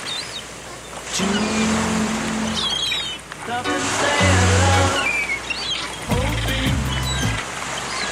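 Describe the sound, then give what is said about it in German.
Rushing sea surf with a few short song snippets buried in it, brief bursts of singing and instruments surfacing in the first half and again near the end over the steady wash of the waves. “Und die sind ganz kurz, hier so ein bisschen im Meerrauschen versenkt.”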